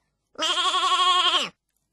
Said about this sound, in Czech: Ovečku, ta je hezká.